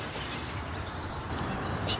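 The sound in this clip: Bird song in a forest: a run of thin, very high-pitched whistled notes and short chirps, fairly clear over a low, steady background rumble.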